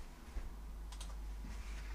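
Faint, irregular keystrokes on a computer keyboard as someone types out a long German compound word, a few soft clicks over a low steady hum.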